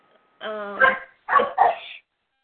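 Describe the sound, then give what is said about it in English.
A dog barking suddenly: a longer, tonal first bark followed by two short, sharp barks in quick succession, then silence. “Oh, yeah, my dog all of a sudden barking at something. But he understands, and he stops.”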